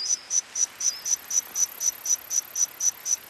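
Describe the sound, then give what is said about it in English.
A cricket-like insect call modeled from fossils to recreate insects from the dinosaur era: over a dozen short, high-pitched chirps repeat in a steady, even rhythm, alone and unchanging. “Scientists have modeled the calls of insects that lived alongside the dinosaurs.”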